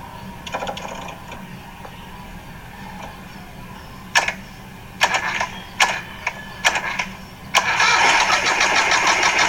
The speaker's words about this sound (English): As we are going to start the engine,